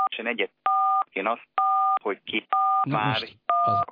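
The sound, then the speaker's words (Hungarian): Telephone keypad tones sound as colleagues redial a caller whose phone failed: a series of steady two-tone beeps, each under half a second, alternating with a voice speaking between them. “valami történt, kollégáim megpróbálják újra hívni Kincses Gyulát”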